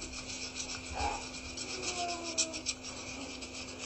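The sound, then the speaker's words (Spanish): A small knife scrapes the surface of an apple, making a steady, dry rasping that runs throughout over a faint constant hum. “Nada más está raspando la manzana, ¿eh? No, no, no le puso nada extra, nada ¿Es normal que una manzana tenga esto? No, con una navajita.”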